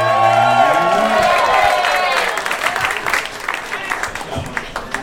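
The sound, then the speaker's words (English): An audience cheers and applauds a comedian arriving on stage. Loud whoops and yells ride over thick clapping at first, then the cheering fades and the applause thins into scattered claps. “Yes, make some noise for our friend Hank Garza, everybody, come on!”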